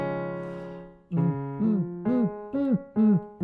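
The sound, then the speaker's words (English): A voice imitates a kick drum as a vocal exercise. A held low hum gives way to a string of short, punchy, pitched vocal thumps in a steady rhythm, each arching slightly in pitch. “What is the kick drum? Basically it sounds like this.”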